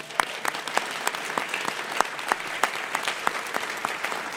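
An audience at a live morning radio show gives light applause to the production crew. The claps are sparse and fairly quiet, sounding at a steady, scattered pace.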